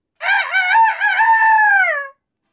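A person imitates a rooster crowing in a guessing game that pits a real cock against a co-worker. It is one loud, sustained crow of about two seconds with rich harmonics and a steady pitch, heard alone.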